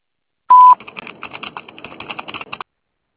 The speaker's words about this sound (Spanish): Después del tono, guarde su mensaje.